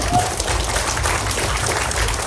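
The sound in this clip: Audience applause at the close of a panel discussion: a dense, even clatter of many hands, loud and steady for the whole stretch.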